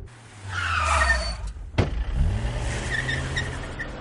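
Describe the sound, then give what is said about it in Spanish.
A car brakes to a stop in the middle of a road, its engine humming steadily before a sharp knock and the hiss of skidding tires, then a lower rumble as it settles. “El coche se para y bajan Adolfo y Martín.”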